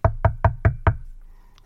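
Five sharp, evenly spaced knocks on a house door, all at similar loudness in a quick steady rhythm, followed by quiet.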